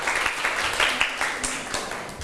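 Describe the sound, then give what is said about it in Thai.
Students in a Thai classroom clap for their classmates. Moderately quiet applause with distinct individual claps that keep a loose, uneven rhythm through a short burst. “เชิญได้เลยปรบมือให้เพื่อนหน่อยค่ะ”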